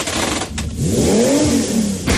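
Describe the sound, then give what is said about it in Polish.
Engine revving from a Ford Puma ST, a three-cylinder sports car: a loud, steady mid-pitched engine note that climbs and then falls back during one rev. “Samochód sportowy jeżdżący na 3 cylindrach, a czasami na 2. A jednak wczoraj w Warszawie miała miejsce polska, europejska i światowa premiera Forda Puma ST.”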